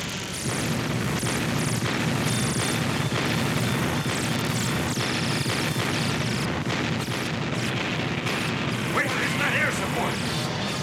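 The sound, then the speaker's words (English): An artillery battery opens fire on alien spacecraft in a battle scene, with many heavy booms and crashing blasts in rapid succession over a continuous loud roar. “Battery, open and fire!”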